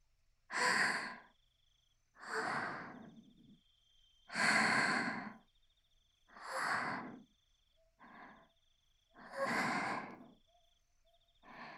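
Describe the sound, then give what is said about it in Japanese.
Several slow, deep breaths, each a loud, broad rush of air separated by short, even pauses, with no talk. “ちょっと、深呼吸しますから。”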